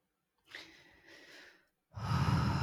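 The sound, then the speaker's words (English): A deep breath: a long, soft inhale, a short pause, then a louder, breathy exhale. “Deep breath. Deep breath.”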